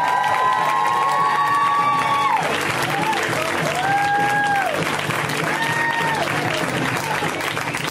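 An audience at a comedy show applauds and cheers as a comedian comes on stage. Loud, dense clapping runs without a break, mixed with crowd noise and rising and falling shouts and whoops.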